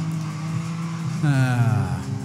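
Race cars passing in a Forza Hot Wheels racing video game, with rivals using nitrous: a steady engine drone runs throughout, then a louder engine swells in midway and sweeps past with falling pitch.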